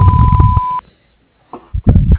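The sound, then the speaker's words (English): Answering machine beep: a steady, pure electronic tone held for just under a second, overlapping other sound, followed by a brief silence before talking begins. “leave your name and phone number after the beep. We will return your call.”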